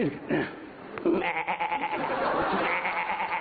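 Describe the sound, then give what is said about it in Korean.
A human voice imitates a baby goat's bleat with a sustained, quavering cry that wavers in pitch and holds fairly steady in loudness for about three seconds. “요거는 새끼 염소 소리구야.”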